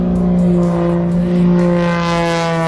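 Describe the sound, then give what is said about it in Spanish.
Steady droning engine of an airplane in flight, a continuous rich harmonic hum that holds an even pitch and loudness throughout, with no voices. “A ver, avión en vuelo. Ponemos así.”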